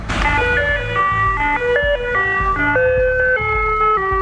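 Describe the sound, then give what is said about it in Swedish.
An ice cream truck in Malmö plays its classic jingle, a bright electronic melody of clear, steady chime-like notes stepping through a tune, loud and alone with no talk. “för en kvinna i Malmö har anmält glassbilen till miljöförvaltningen eftersom hon tycker att den klassiska melodin stör för mycket.”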